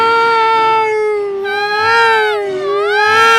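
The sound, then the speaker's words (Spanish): Continuous wailing cries from people being given a vaccine, a sustained tonal sob whose pitch wavers and bends up and down for several seconds without a break. “Es la gente que está llorando cuando le aplican la vacuna.”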